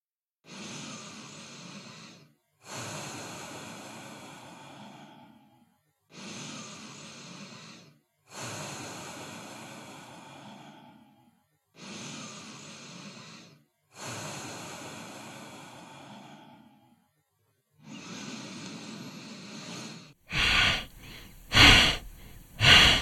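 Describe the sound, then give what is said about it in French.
Slow, deep breathing during a yoga exercise for coping with the cold: seven long, airy breath sounds in a steady, even rhythm, each separated by a short pause, with no talk. “Allez, c'est parti nous allons commencer par deux ou trois respirations profondes pour vous préparer”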